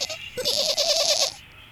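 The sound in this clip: A small white goat kid bleats in one loud, trembling cry lasting just over a second, its wavering pitch pulsing rapidly before it breaks off.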